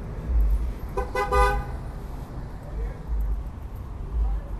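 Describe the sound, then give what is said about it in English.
Urban street traffic in the Bayview Hunters Point neighborhood: a steady low rumble of passing cars with one short, bright car-horn toot early on, then the engine drone carries on alone. “The streets are urban, often deserted, and they might sound like this.”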